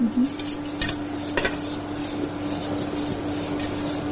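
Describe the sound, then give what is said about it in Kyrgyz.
A mixture is stirred by hand in a pot, producing soft scraping and a few sharp clinks of utensil against metal. A steady background hum runs underneath throughout. “15 мүнөт бир орундан жылбай дабылсын деп аралаштырсаң, колдорум аябай талып кетет экен”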